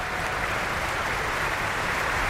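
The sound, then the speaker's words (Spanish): An opera audience applauds the three Rhinemaidens at the Bayreuth Festspielhaus. The clapping is a continuous, dense wash that holds at an even, moderate level with no clear breaks. “Aplausos para las tres hijas del Rin. Y vamos a compartir esta emoción que vive el público del Festspielhaus de Bayreuth, pues escuchando esos aplausos que van dando al elenco”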